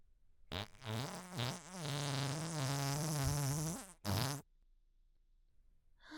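A long, loud, buzzy fart in a closed room, its pitch wavering, followed by a brief second burst and then near silence.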